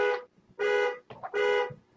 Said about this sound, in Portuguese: Disparou uma buzina.